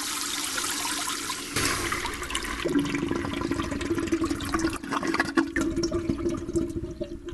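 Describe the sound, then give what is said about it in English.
A toilet flushes with a continuous rushing, gurgling surge of water that stays loud and steady throughout, with a low tonal hum beneath the flow. “Wipe, rinse, and repeat. Toilets and sanitation. A little flushed up.”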